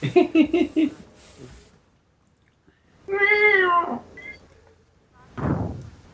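A cat lets out a long, wavering meow, loud and clear, with brief harmonic sounds before it and a short noisy burst after it.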